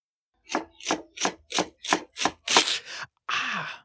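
A knife chopping onions or other vegetables on a board, with several evenly spaced crisp strokes in a steady rhythm followed by a longer rasping scrape, and no voices.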